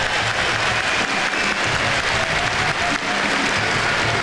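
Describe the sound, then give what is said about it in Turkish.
A stadium crowd at a football match applauds a team's pressing: steady, dense clapping that stays loud and even throughout, with a broad crowd murmur under it. “Pochettino tarafından da bu baskı alkış aldı.”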